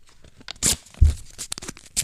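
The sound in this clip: A paper envelope is torn open in a few short, crisp rips and crinkles, with one heavier tug in the middle, heard alone without talk.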